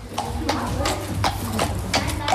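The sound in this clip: Horse hooves clip-clop at a children's riding group in an even, walking rhythm of several steady strikes, with people talking underneath.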